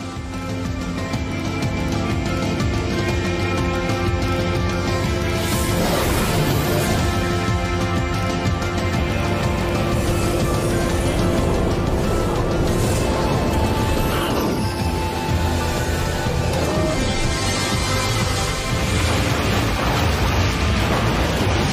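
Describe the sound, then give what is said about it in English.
Announcement trailer audio for the video game No Man's Sky on PSVR 2: a loud, continuous droning score with rumbling, crashing effects swelling at intervals throughout. “Next up, we have Asset 15, which is a very short video. No Man's Sky PSVR 2 announcement trailer. I'm going to show it to you, then we're going to talk about it.”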